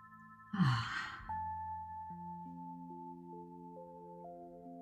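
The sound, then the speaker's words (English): One long, deep, breathy sigh comes during a calm meditation. It swells and fades over soft, sustained musical tones that go on quietly underneath. “So again, we take a deep breath.”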